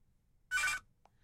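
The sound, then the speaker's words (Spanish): A single short burst of a telephone ringing for an incoming call, followed by a faint blip. “Entra llamada.”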